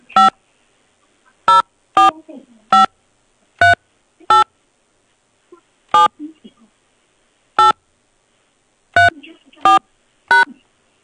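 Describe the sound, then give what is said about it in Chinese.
Telephone keypad tones entering a phone number into an automated WeChat Pay customer-service line: many short, sharp beeps spaced at irregular intervals against silence. “请输入您微信绑定的手机号码或 QQ 号码。”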